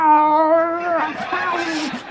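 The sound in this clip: A voice imitates a rabid, angry cat yowling under a bed, one that a dog bit: a loud, sustained wailing tone that turns rougher and noisier toward the end.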